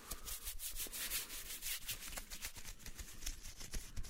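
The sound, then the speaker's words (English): Hands rubbing across a person's scalp and through their hair, making a soft, continuous scratchy friction with repeated faint strokes, quiet and alone. “Let me rub your scalp across your hair with my hands.”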